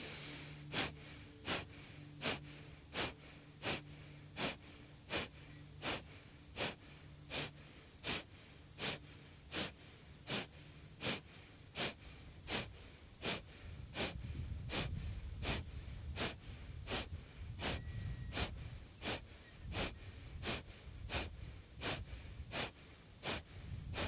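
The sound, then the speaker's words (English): Many forceful, rhythmic exhalations of skull shining breath, a yoga breathing practice. Sharp, evenly spaced puffs of air repeat steadily over a faint, low background rumble. “So skull shining breath here.”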